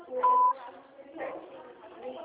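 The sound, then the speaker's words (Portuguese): A single short, steady voicemail recording beep sounds at the start, followed by a voice speaking quietly afterward. “Sua chamada está sendo encaminhada para a caixa de mensagem e estará sujeita a cobrança após o sinal. Após o sinal, grave sua mensagem.”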